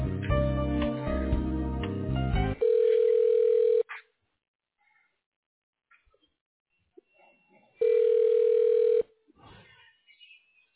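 A telephone tone plays while a call is transferred: a short stretch of busy tonal sound, then two steady low-pitched tone bursts about a second long, separated by silence.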